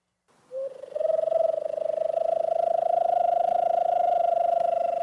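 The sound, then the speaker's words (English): A hawk owl call sounds as one long, sustained tone. It holds a low, steady pitch with a slightly pulsing, trilled texture and carries on alone for several seconds. “Do you know what that is the sound of? Is it a hawk owl?”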